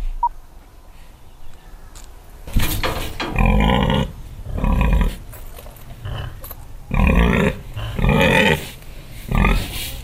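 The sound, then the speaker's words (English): Pigs on a farm grunt and snort in several loud, rough bursts, each lasting about a second, separated by quieter stretches of low background noise. “Hello, pig. Hello, piggies.”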